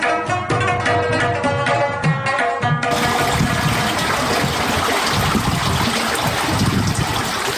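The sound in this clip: Water pours out of a karez, an underground irrigation channel, in a steady, loud rushing and gurgling stream that continues without a break; a brief tonal sound sits over the flow at the start.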